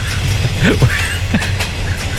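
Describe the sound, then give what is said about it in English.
Inside the Galway to Dublin train, a steady, loud low rumble of the moving carriage, with a few faint brief higher sounds over it. “You're on the train there, Michael D., are you? Good morning, Ian. Yes. Fantastic discussion. You're on the Galway to Dublin train, yeah?”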